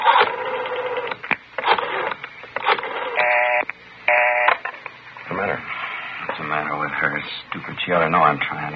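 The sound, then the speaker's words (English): Telephone dialing after being told to dial 9 first: two short bursts of electronic tones sound amid people talking. “I better try that call. Yeah, well, dial 9 first.”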